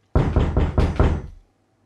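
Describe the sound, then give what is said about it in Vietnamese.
Knocking on a door sounds suddenly, a rapid run of several loud, hollow knocks in an even rhythm, ending abruptly, with no talk. “Tiếng gõ cửa đột ngột vang lên làm cho ông giật bắn mình.”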